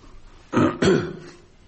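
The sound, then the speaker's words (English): Two quick, throaty coughs in close succession from a person with a cold coming on, fairly loud and alone, followed by quiet. “It's not a significant cough, that. It's just got a cold coming on.”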